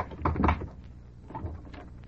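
Door opening with a cluster of wooden clunks and rattles early on, followed by a softer knock and faint handling noise, no voices.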